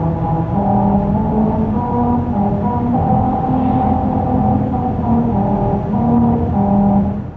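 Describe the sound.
A car drives over grooves cut into pavement that are meant to play the William Tell Overture. The tires ring out a buzzy, droning sequence of sustained notes that step between pitches over a constant road rumble, steady in loudness throughout.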